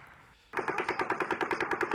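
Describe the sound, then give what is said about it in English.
Rapid automatic gunfire from a recording of an actual shooting event bursts in after a brief quiet moment, a loud, fast, evenly spaced string of many shots continuing without pause to the end. “Okay, so that's the rate of fire of the actual event.”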